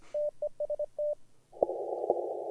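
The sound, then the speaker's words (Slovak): Morse code telegraphy tones from a radio station calling: a clean steady beep keyed in short dots and longer dashes, then a harsher, noisy buzzing band with a few sharp clicks. “Je tam C2V, telegrafia.”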